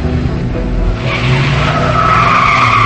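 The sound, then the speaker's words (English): A car drives away with a loud, continuous road roar. A squealing tire whine joins about a third of the way in and carries on to the end, with no talking. “They drive away.”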